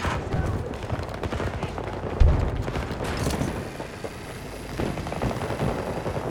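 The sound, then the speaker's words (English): A 12M auto shotgun fires in a video game firefight, giving dense, rapid gunfire with one heavy boom standing out partway through as the noisy shooting continues. “The 12M, that's an auto shotgun.”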